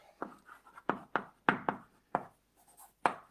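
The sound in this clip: Writing on a board during a lecture: a series of short, sharp strokes and taps in an uneven rhythm, each a quick scratchy hit with brief pauses between, heard alone without talk.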